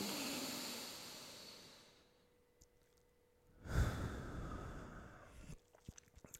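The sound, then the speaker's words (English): A deep breath in, heard as soft airy rushing noise that fades into near silence, then a fuller, louder breath swells and trails off. “Take a deep breath in.”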